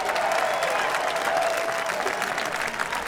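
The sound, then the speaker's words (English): Dense, steady applause from a concert audience in Pittsburgh welcoming a bluegrass bass player of the year from Arizona. The clapping runs at an even roar throughout, mixed with faint crowd noise. “while you got your hands together, we need to make welcome the bass player back here. He's the bass player of the year in bluegrass music, originally from the state of Arizona.”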